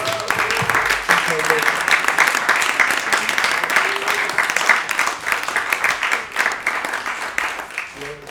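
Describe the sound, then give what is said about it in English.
Audience applause fills the whole stretch as a dense, steady wash of clapping at even loudness, with voices mixed in. “Can I have just a clap for everybody, just for yourself?”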